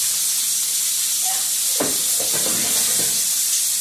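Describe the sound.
Food sizzles in three cast iron pans on a small burner, a steady bright hiss running throughout with a few soft crackles and pops in the second half; no one talks.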